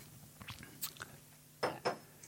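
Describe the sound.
Crunchy biting and chewing of food with a mealy texture: several short, faint crunches spaced irregularly, with two louder bites near the end and no voices.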